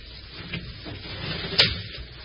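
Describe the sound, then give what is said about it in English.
A desk being opened, with a soft rustle followed by one sharp, bright click. “I'm going to open this desk and stand in front of it.”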